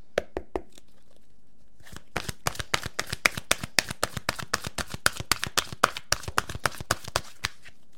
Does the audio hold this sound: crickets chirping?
no